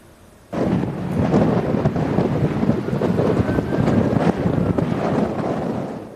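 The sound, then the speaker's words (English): Strong wind roars at a wildfire in Washington state, a loud, steady rushing roar with gusty buffeting. It starts abruptly after half a second and keeps going without a break, with no voices. “And you can hear the monstrous winds that responders are fighting.”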